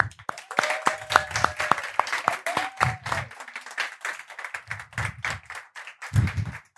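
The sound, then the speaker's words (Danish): Audience applause for an award recipient from an art association, with many dense, overlapping claps that keep going steadily with brief swells. “Giv en stor hånd til Helle Berndt fra Kunstforeningen Gamle Strand.”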